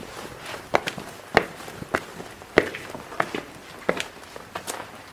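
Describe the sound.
Footsteps of someone walking up to the upper floor of a building: a steady series of sharp, distinct steps at an even walking pace, heard alone without talk.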